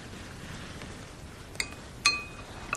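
A spoon clinks against a bowl while macaroni soup is being served, three bright metallic taps over a soft background hiss, the middle tap the loudest and ringing briefly.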